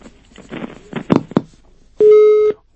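Telephone busy tone after a caller disconnects during a live call-in, sounding as one steady, loud beep near the end, preceded by a few faint, muffled line noises.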